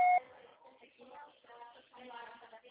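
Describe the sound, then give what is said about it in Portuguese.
A voicemail beep sounds as a single short, loud electronic tone at the very start, followed by indistinct voice-like sound at lower volume. “Sua chamada está sendo encaminhada para a caixa postal e estará sujeita à cobrança após o sinal.”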